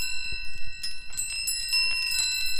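Wind chimes jingle as someone moves through a crowded cluster of them in a small back garden. Several clear metallic tones ring out together and linger, struck again and again in light, overlapping bursts.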